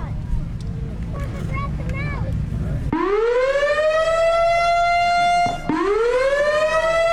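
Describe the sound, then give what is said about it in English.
A civil defense siren sounds at a siren gathering in Wisconsin. It starts abruptly after about three seconds of wind noise as a very loud, steady, harmonic-rich wail, breaks off briefly, then resumes. “That's a siren.”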